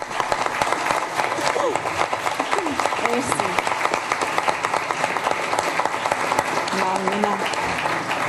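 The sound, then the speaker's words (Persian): Audience applause for an actress's performance in a film: dense, steady clapping fills the whole clip, with crowd noise. “حرف‌های فرشته صدر و رفایی رو بشنویم و البته این صدای تشویق کسانیه که بازی او رو بسیار پسندیدند.”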